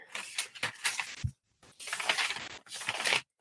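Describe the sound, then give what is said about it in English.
Paper rustling and shuffling as pages are searched for a quote from a murder case, heard as a few rough, crackly bursts with a short silent gap in the middle. “let me find the actual what he said. Hold on. You're going to hear paper.”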